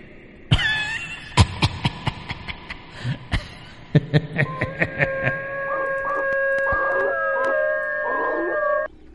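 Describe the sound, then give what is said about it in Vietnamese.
Village dogs howl together in long, sustained, overlapping tones held at steady pitch, coming in after a run of sharp, irregular knocking taps. “Chó trong làng lại bắt đầu rú lên đồng loạt.”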